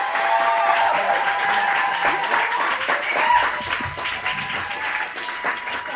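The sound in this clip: Warm audience applause greets a performer at a spoken-word poetry event, a steady wash of clapping with some crowd noise that tapers slightly toward the end.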